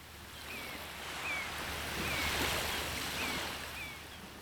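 Ocean waves washing in at a beach make a soft, steady rush of surf that swells gently and eases again, fairly quiet throughout.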